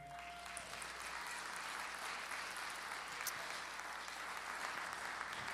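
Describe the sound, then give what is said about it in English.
A church audience applauds to welcome guests, a steady, even wash of clapping that continues without pause from start to finish. “Can you can you give all of our guests a welcome today?”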